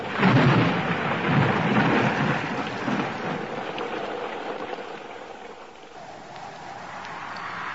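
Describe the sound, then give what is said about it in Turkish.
Heavy rain pours down in a dense, steady roar of hiss and patter. It is loudest at the start and eases slightly partway through without stopping. “Yağmur hızlandı. Epeyce ıslanacağız herhalde.”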